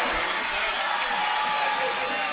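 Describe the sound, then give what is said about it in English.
A high school football crowd roars after a 78-yard Traverse City West touchdown, a dense, continuous cheer that holds loud and steady throughout. “Touchdown, Traverse City West. Holy cow, Tom. A 78-yard touchdown. Oh, boy, listen to the crowd.”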